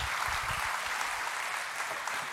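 A church audience applauding to welcome first-time guests, with dense, steady clapping from many hands that holds at an even level throughout.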